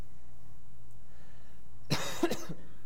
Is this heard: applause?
no